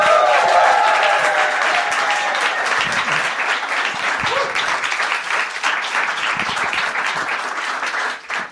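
Audience applause welcoming comedian Hannah Gadsby at a live Melbourne Comedy Festival show, loud sustained clapping from a large crowd that holds steady and then tapers briefly at the end.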